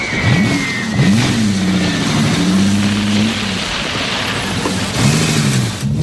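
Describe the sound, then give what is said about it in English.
Car engines rev as a convertible and another car pull away, a loud mid-pitched engine drone with a few rising surges of revving throughout. “Tracy runs to her convertible as the guard's car backs up. Bond ducks into the car beside Tracy, who wears a fur coat and hat.”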